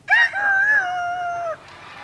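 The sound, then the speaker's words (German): A human voice imitating a rooster crowing: one loud, high, wavering crow lasting about a second and a half, starting with a sharp burst, holding a drawn-out note, then breaking off abruptly. “Und Hähne auch, wie ihr hört.”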